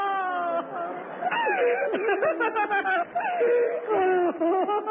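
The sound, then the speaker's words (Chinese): A child crying in loud, continuous wails and sobs whose pitch wavers and glides up and down, with barely any pause. “别哭了宝贝儿，跟妈走得了。”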